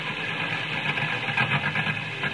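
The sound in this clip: A car engine drones steadily in bad weather, a rough, dense rumble with uneven pulsing throughout and no other sounds.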